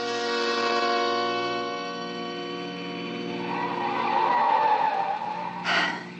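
A car drives fast up a steep, winding mountain road. Its engine drones steadily with a dense, buzzing tone, tire squeal swells midway, and a short noisy burst comes near the end.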